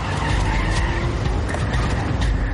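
A car speeds off from an alley with tyres skidding and squealing, a loud, steady rush of engine and tyre noise that fills the whole clip with no voices.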